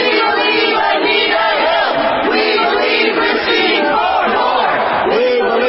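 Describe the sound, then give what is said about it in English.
Demonstrators protesting a Supreme Court nomination shout and chant as a loud, dense crowd, their overlapping voices forming a continuous roar with no pauses. “That's the sound of some demonstrators who are protesting Brett Kavanaugh's Supreme Court nomination.”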